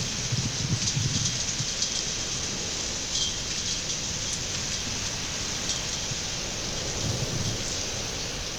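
Rain that has just begun falling makes a steady, even hiss that holds for the whole stretch without pauses, with a faint low rumble in places and no voices.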